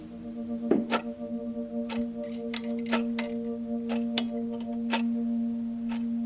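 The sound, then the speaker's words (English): Loud ticking of a clock at night in a quiet home, a steady run of sharp dry clicks repeating for several seconds over a constant low electrical hum. “The clock gets really loud at night.”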